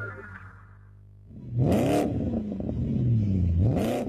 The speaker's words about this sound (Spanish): Sentí la innovación al volante de un Changán.